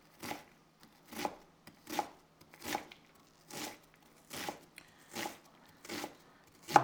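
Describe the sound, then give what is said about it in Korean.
A knife chops food fast with crisp, sharp strikes repeating in a steady, even rhythm, fairly quiet and with no talk over them. “내가 칼질을 이렇게 빨리 할 수 있다니.”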